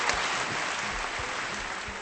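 Faint, steady applause from a group, an even wash of clapping held at low level for the whole stretch.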